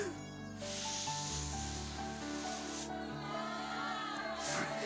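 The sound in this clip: Breathy blowing as two balloons are inflated at once: a long rushing exhale of about two seconds, then a shorter puff near the end, faint over a steady tonal background.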